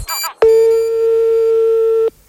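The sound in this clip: A telephone line tone as a phone is picked up: one loud, steady, even tone that holds for under two seconds, then cuts off abruptly, with a brief burst of other sound just before it.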